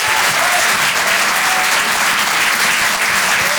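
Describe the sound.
Dense, steady applause from a comedy show audience welcoming a comedian onto the stage. The clapping stays loud and continuous as a full wash of sound, with no pause from start to end.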